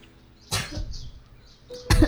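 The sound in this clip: Two coughs from a sick child, a short rough burst followed later by a louder, sharper one near the end, with no talking.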